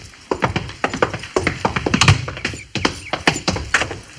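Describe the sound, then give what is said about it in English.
Horse hooves clop as a lone rider approaches, making many hollow thuds in a quick, uneven rhythm. The hoofbeats stay fairly loud and sharp throughout, with no voices. “I suppose that's the chief riding in alone.”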